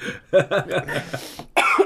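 A person coughs in a run of short, quick bursts, then gives one louder, longer cough at the end.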